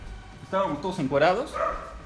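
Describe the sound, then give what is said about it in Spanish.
A dog barks and yips in a single short burst of whining, harmonic cries that rise and fall in pitch, loud and alone against a low background hum. “No sabe hablar, solamente ladra y gruñe, pero quiere participar.”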